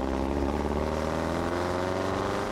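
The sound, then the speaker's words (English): Engine of a 1926 Winfield Ford vintage race car driving on city streets: a loud, steady, rumbling drone with rich harmonics that holds an even pitch throughout, with no voices. “This is the sound of a 1926 Winfield Ford disturbing the peace for the documentary Where They Raced.”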